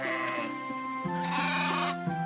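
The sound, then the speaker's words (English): Sheep bleating in a flock: a few wavering, nasal bleats overlap and shift in pitch, sounding steadily and moderately loud without speech. “Once there was a shepherd with a hundred sheep, but he lost one of them.”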